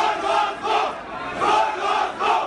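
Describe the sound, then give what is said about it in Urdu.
A crowd of Pakistan Tehreek-e-Insaf party workers leaving the Supreme Court chants anti-government slogans, loud massed voices rising and falling in a steady repeating rhythm. “Supreme court کا فیصلہ آتے ہی حزب اختلاف کی دوسری بڑی جماعت پاکستان تحریک انصاف کے کارکنوں کی ایک بڑی تعداد عدالت سے حکومت مخالف نعرے لگاتے ہوئے نکلی۔”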